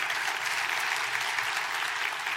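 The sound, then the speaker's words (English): A church audience applauds its worship team and band with dense, steady clapping that holds evenly throughout without breaks or cheering. “Let's give a big hand to our worship team and our band. They work hard.”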